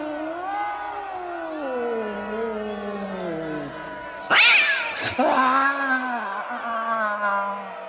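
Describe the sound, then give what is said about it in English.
Cats meowing and caterwauling: long, loud, wavering yowls that rise and fall in pitch, continuing through the whole stretch, with a sharper, more intense cry near the middle. “Curse you, feline. I was a perfectly decent sergeant. General, look! More cats are coming out of the water.”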